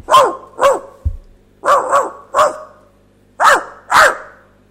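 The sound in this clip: A dog barks seven times in sharp, loud bursts, grouped unevenly with short pauses between them, and there is one dull thump early on.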